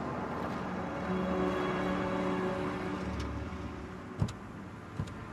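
A car pulls in at a motel, its engine a faint, steady low rumble throughout, followed by a couple of brief clicks near the end.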